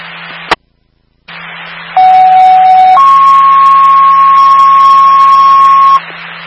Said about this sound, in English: stand by for the following tone for 47 French Street.